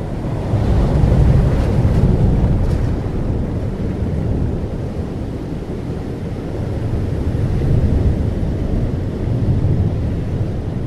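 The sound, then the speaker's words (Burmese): Roaring sea waves churn during a heavy rainstorm, a loud continuous wash of noise with slow surges that swell, ease and build again, mixed with gusty wind, with no voices. “ပင်လယ်ပြင်ကြီးကမူဖိုးသားကိုဂေးမဆိုင်သည့်အလားလှိုင်းတံတိုးမုန်းထကဆူညံနေလေသည်”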